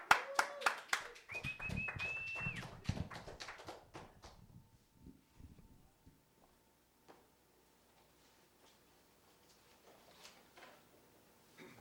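An audience applauds to welcome a guest. A burst of clapping lasts about four seconds, then dies away into a few scattered claps and near silence.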